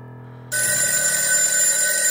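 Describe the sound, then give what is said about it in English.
A phone rings with a loud, steady electronic bell tone that kicks in after a brief softer tonal lead-in and keeps sounding without a break. “my phone rings and I scream. I pick up the phone.”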